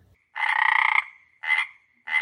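A frog croaks three times: first a long, buzzing croak, then two shorter croaks after brief pauses, each loud and heard alone.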